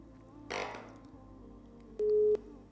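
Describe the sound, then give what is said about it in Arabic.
A phone call ends with a disconnected tone: two short, steady, mid-pitched beeps near the end. Earlier there is a brief burst of noise over a low background hum. “فصلت المكالمة.”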